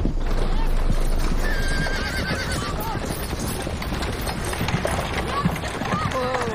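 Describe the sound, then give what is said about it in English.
Horses pulling a wagon clip-clop steadily, and whinnies ring out above the hoofbeats over a continuous rumbling bed of sound. “Zach helps Missy into her wagon, and they ride back to the office.”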